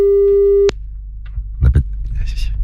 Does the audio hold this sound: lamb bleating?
no